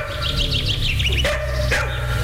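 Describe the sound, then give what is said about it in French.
Fierce dogs barking: two sharp, loud barks come after a stretch of high chirping, over a steady low hum. “à cause des chiens qui semblent très féroces.”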